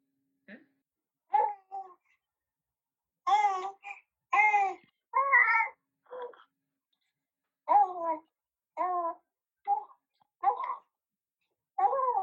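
A baby about three months old babbling: many short cooing and gurgling vocal sounds with wavering pitch, separated by brief silences and heard alone.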